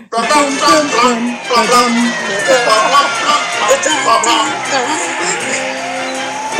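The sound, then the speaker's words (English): Four-wheel drive cars race on a beach, engines roaring loudly and continuously with rising and falling revs and repeated tire squeals throughout. “we're going to enter a four-wheel drive race on the beach.”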